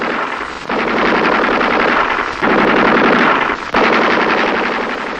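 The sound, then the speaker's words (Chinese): An enemy sentry machine gun fires in long, loud, sustained streams of rapid shots, with a few brief breaks in the fire. “不，这是敌人值班机枪。”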